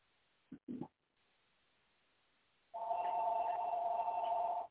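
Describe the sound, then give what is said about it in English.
A telephone rings with a steady electronic trill lasting about two seconds, heard alone at a moderate level after a quiet pause. “pardon that phone, I'm not even close where it's at.”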